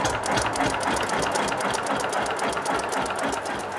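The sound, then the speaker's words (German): A small roadworthy diesel tractor engine, worked by hand throttle, runs with a fast, even mechanical clatter. The sound is steady and moderately loud, with no voices. “Mit dem fahrbereiten Dieselzwerg will er Obst holen. Einen Starter hat er nicht.”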